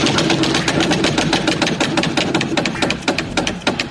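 Rapid ratcheting clicks of a spun prize wheel during a comedy show. The dense, loud ticking grows more widely spaced toward the end.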